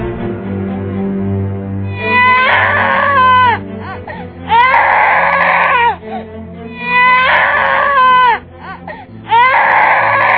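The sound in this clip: A newborn baby boy cries loudly in four long, wailing bursts separated by short pauses, over a low, steady background drone.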